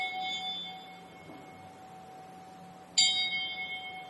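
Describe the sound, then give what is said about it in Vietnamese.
A temple bell at a Buddhist ceremony is struck once near the end with a sharp, bright onset and a ringing decay, after a stretch of faint, steady tones. “Ban trung cổ trỗi ba hồi chuông trống bát nhã để cung thỉnh hòa thượng hồi quy phương trượng.”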